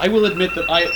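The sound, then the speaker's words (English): Phone alarm ringing with a short, bright repeating electronic tone, while a voice talks over it. “That's my alarm.”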